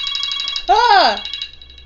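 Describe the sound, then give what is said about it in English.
A phone alarm sounds in rapid, regular high-pitched beeps that are cut across by a loud voice exclamation, then continue steadily afterwards. “That's my alarm for one question a day journal.”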